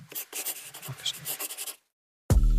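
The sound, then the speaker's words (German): Writing by hand: many quick, scratchy strokes in an uneven rhythm, moderately loud, stopping abruptly into a brief silence. “Ich schreibe es dir auf. Warte.”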